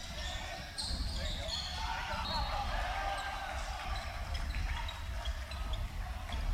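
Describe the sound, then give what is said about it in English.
A basketball bounces on the court before a free throw in a college game between Middle and Montana State, the dull thuds half-buried under a steady, loud crowd murmur with people talking. “Free throw is good, 24 22. Second shot, no good.”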